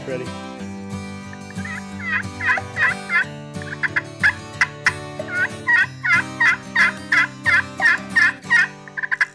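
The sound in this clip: A crystal friction turkey call imitates a wild turkey with many loud, raspy, high-pitched yelps in quick rhythmic runs, over a sustained tonal background.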